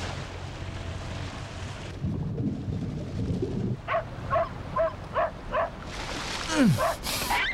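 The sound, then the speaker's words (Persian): Dog barking in a quick run of several short, evenly spaced barks over a constant background hiss, followed by a louder, noisier burst at the end. “بس کن دیگه، اصلا حوصله واق واق تو رو ندارم.”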